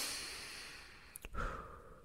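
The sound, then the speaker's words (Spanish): Breathing, shared in a slow, deep rhythm: a soft, faint airy exhale fades away, followed by a brief sniffing intake of breath and a low, breathy swell, with no talking. “Respira, respira conmigo, respira.”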